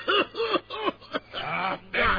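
Repeated human coughing from someone in a marching drill: several short, voiced hacking coughs in a fairly steady rhythm, then longer rough, throaty bursts, all fairly faint.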